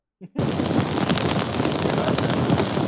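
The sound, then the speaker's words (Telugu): Thunder during heavy rain: a short soft burst, then a sudden loud onset that holds as a dense, steady roar to the end. “ఉరుములు ఉరుములు ఉరుములు ఉరుములు”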